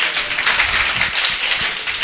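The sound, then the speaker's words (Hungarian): Church audience applauding their pastor: dense, steady clapping from many hands that holds an even level through the whole short stretch, with no voices standing out. “szerintem tök jó pásztor, úgyhogy tapsoljuk meg.”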